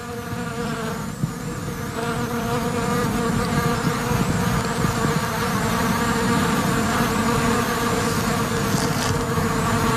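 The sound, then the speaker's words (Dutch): Wild bees buzz around a flowering wild plum tree. The droning hum is steady and continuous, with a few faint higher tones running through it. “De wilde bijen op de wilde pruim.”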